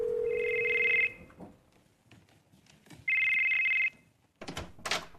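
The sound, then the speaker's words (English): Telephone ringing: two loud, bright electronic ring bursts, the first about a second long and the second slightly shorter, separated by a quiet pause filled with faint background noise. “Your phone rang.”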